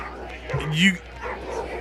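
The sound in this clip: An annoyed dog gives a single short, yelping bark with a whining edge, loud over the surrounding sound, while people talk.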